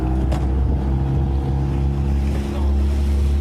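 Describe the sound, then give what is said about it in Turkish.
A motorboat engine drones steadily as two people race by boat across the sea to where someone fell from a bridge into the Bosphorus. The loud, unbroken low rumble keeps an even level throughout. “Şüphelinin suya düştüğünü gören ve o sırada denizde bulunan iki kişi botla olay yerine hareket etti.”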